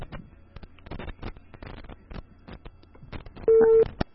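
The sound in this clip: Telephone line tone after a call was cut off: a run of crackling clicks and line noise, then one short, loud, steady tone, with no talk.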